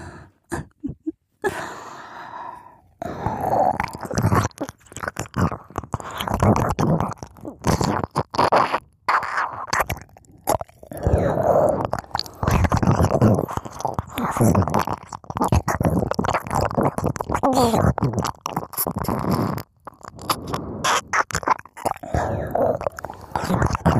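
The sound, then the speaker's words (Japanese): ASMR ear licking: wet, sticky mouth sounds with smacks and slurps in an irregular stream, broken by brief pauses. “お耳を舐めているだけよ。お耳を舐めて快感を流し込んでいるだけ。”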